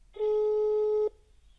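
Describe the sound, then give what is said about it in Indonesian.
A steady telephone line tone while a call is placed: one even, mid-low electronic beep lasting about a second, heard alone and stopping cleanly. “kita coba ya hubungi Gita supaya nanti kita bisa ngobrol lebih lanjut”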